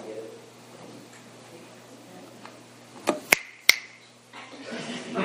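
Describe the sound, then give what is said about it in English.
Finger snaps: a couple of sharp, crisp clicks close together, standing out from a quiet background. “See, all I do is snap my fingers.”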